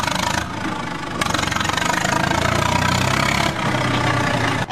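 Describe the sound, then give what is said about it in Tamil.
A JCB backhoe loader's engine idles on pasture land that is about to be cleared. It makes a loud, steady, rough rumble with a dense knocking texture that barely changes in level and carries no talk. “அந்த ஜேசிபிய start பண்ண சொல்லு.”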